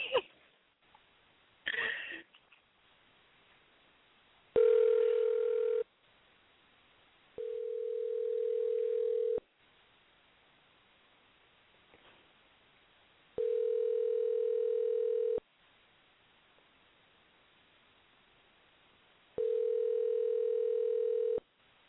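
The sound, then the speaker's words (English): Telephone tones while a call is being placed: four steady, mid-pitched tone bursts of one to two seconds each, separated by longer quiet gaps, with a few brief rustles and clicks before the first tone. “I'm going to hit dial, and it's going to call. Here we go.”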